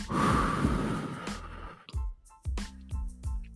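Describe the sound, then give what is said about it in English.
A person breathes in and out deeply during a guided relaxation exercise. A long, noisy inhale is followed by several short, voiced, sighing exhalations. “Breathe in. Breathe out.”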